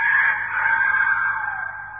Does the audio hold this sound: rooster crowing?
yes